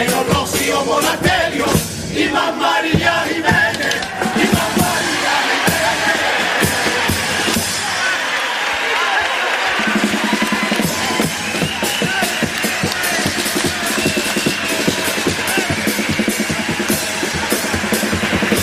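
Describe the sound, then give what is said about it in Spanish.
A theatre audience, many standing, applauds and cheers at the close of a carnival pasodoble: a long, loud, steady roar of clapping with scattered yells and whoops that dips briefly and then swells again. “Mira cómo está el público, sí, cómo sí. ha respondido. Gran parte del patio de butacas en pie, varios palcos también aplaudiendo el remate de este paso doble,”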